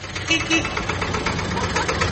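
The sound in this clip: An old tractor engine, 56 years old, runs with a continuous low, rumbling chug that stays loud and steady throughout.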